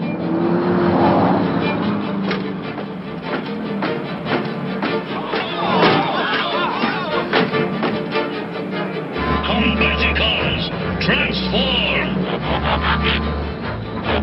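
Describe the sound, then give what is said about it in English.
Engines of the Combaticons, transforming robot vehicles, roar and rev continuously as they drive down a city street, with a deep, low rumble added in the second half. “One day in the city, the Combaticons are driving down the street.”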